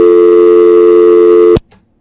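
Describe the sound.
A telephone line tone sounds as a caller comes through on a radio phone-in show: one steady electronic tone holds for about a second and a half, then cuts off abruptly, followed by a faint click and silence.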